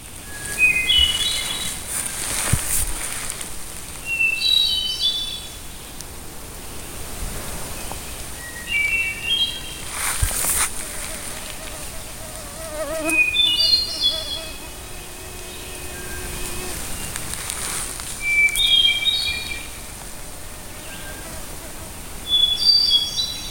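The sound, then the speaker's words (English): A purple finch sings a series of bright, rapid warbled phrases, each a short tumbling run of high notes separated by pauses, over a faint, steady background hiss. “Purple finch.”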